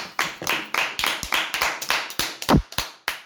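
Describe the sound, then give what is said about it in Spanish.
Applause from a few pairs of hands, sharp uneven claps at a brisk steady pace, fairly loud, with no talking over them. “Un aplauso.”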